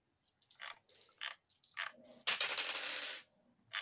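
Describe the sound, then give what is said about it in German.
Dice are rolled during a tabletop role-playing game: several faint, short clacks come first, then a longer rattling clatter as the dice tumble and settle, and a last small click at the end. “Würfel mal plus Raffinesse.”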